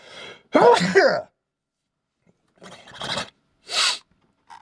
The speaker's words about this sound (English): I'm gonna sneeze. Ready?